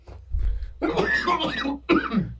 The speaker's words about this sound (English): Sorry, I need to, like, cough really bad.